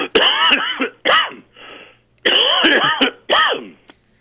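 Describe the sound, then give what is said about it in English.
Harsh, raspy coughing from someone with rice caught in the throat, in two clusters of hacking bursts separated by a short pause, loud and alone with no talking. “Rice in the throat. Rice in the throat.”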